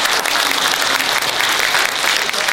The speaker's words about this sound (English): Give these guys a round of applause if you watch it on Thursday.